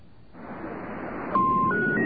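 Touch-tone dialing on a telephone keypad, two short electronic beeps in quick succession over a steady hissing line.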